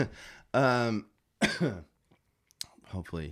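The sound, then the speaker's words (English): Several coughs and throat-clearing sounds from someone who has been coughing repeatedly, coming in separate harsh bursts with short silences between them. “it's been like 3 episodes in a row that I've been coughing”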